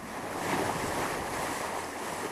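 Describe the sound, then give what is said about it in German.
Calm sea water washes around a raft on a windless day, a soft, continuous hiss of small waves, faint and even throughout with no voices. “An einem windstillen Tag mit ruhiger See wagen sich jeweils 2 der Floßfahrer ins Schlauchboot, um Kon-Tiki”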